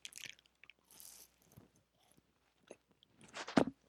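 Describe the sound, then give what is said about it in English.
Faint chewing and biting on an edible, with a few soft, scattered crunchy bursts separated by near silence and one louder crunch near the end. “Let's eat this edible.”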